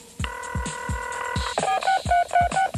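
Telephone dialing tones: one long tone followed by several short beeps, set over a steady, rhythmic drum beat in a song.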